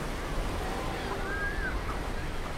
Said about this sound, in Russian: Милки стоит на пляже и смотрит на океан.